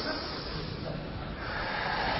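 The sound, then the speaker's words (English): Audience members taking a deep breath together, heard as a steady, breathy hiss of many people breathing at once, fairly quiet and unbroken from start to finish. “let's first of all take a deep breath. That didn't sound like a very deep breath. Let's try that.”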